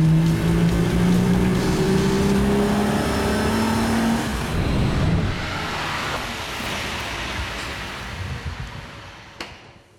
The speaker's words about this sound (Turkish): Bu iyi bir otomobil. Sevdim. Motor güçlü. Maranello, Ferrari, süper.